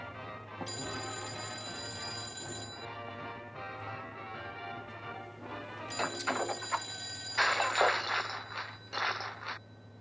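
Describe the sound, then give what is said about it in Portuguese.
A telephone bell rings in a few long, bright, rattling bursts, loud against a quiet background, with the final stretch breaking into quicker pulsed rings. “O telefone é Sam. Vou atender.”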